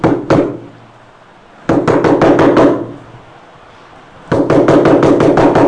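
Knocking on a door comes in three bursts of sharp, loud raps: two quick knocks, then a rapid run of several, then a longer, insistent series. No voices are heard.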